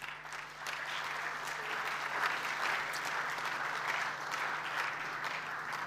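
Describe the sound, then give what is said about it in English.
Steady audience applause greets a man arriving to join a panel, a dense even wash of many clapping hands that holds at an even level for about six seconds after a slightly softer start. “Here he comes. Let's give him a hand.”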